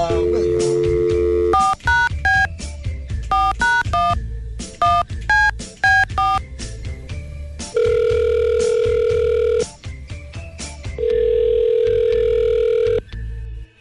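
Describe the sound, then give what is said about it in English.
A telephone call being dialed and ringing: a steady dial tone, then many quick two-tone keypad beeps in uneven bursts, followed by two long, loud ringback tones with a short pause between them. “We're going to give him a call right now.”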